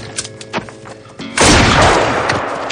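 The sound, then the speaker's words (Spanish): A revolver fires a single loud gunshot in a Western showdown, shooting a fleeing lawman. The sharp blast rings out in a long decaying tail after a few softer knocks. “Sin piedad, dispara a un agente que huye.”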